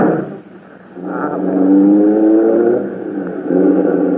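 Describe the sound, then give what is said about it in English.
A taxi cab's engine revs and pulls away, a loud motor hum that swells up, eases off, then swells again. “Can't we run out in a cab? Oh, all right. Let's get in this one. Sure. Driver, take us to 451 North Beverly Drive.”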